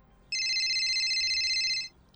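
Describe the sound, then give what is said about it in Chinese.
A mobile phone rings with one steady, high electronic tone lasting about one and a half seconds, then stops abruptly. No voices or other sounds are heard. “这时他的手机响了，”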